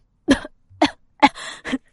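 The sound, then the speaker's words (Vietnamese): A violent coughing fit: four harsh, separate coughs in quick succession, each a short rasping burst with brief silences between, heard alone with no talking. “Đại vương tử bật ra một cơn ho sặc sụa, nước mắt cũng theo đó mà trào ra.”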